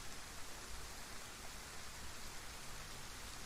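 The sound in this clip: Heavy rain falling outdoors, a dense, unbroken hiss that stays steady and even throughout.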